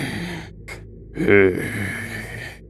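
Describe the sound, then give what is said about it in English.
A voice imitates the heavy breathing of a resting creature: slow, airy, drawn-out breaths with a rougher, rasping voiced swell in the middle, then a softer breathy tail. “you can hear a heavy breathing. Like a”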